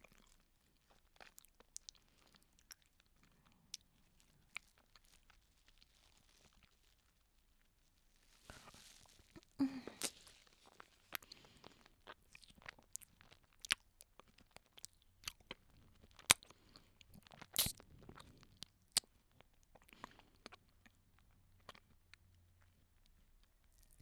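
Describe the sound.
Someone chewing and eating a banana: soft, wet mouth clicks and smacks at an irregular pace, very faint, sparse at first, then busier and denser after a short quiet stretch.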